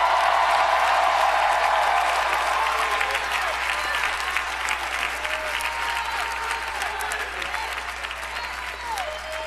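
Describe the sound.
Worshippers in a church audience burst into applause and cheering. Dense clapping runs with scattered shouts and whoops, loudest at first and slowly tapering off.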